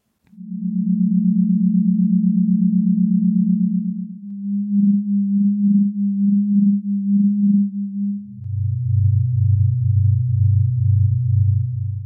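Sonified starquake: seismic waves inside stars turned into sound, heard as pure, humming low tones in three sections. A steady tone gives way to a pulsing one at the same pitch, then a lower, louder pulsing drone.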